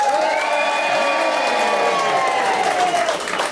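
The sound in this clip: An audience cheers loudly to vote for a superhero costume choice between Eel Girl and the Incredible Moth. Sustained, high-pitched shouts and whoops blend into a continuous roar with scattered clapping.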